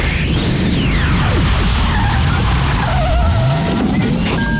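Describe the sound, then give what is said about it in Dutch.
A car skidding sound effect marks a time machine starting up. Sweeping engine whooshes and squealing tires rise and fall over a dense roar. The effect runs loud and continuous throughout. “Start de tijdmachine, gek!”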